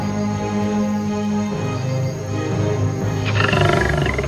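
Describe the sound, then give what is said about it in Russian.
A lion emerging from a forest gives a loud, low, rumbling roar that is sustained throughout and grows rougher and grittier near the end. “Затем раздался голос. Из леса величественно вышел лев.”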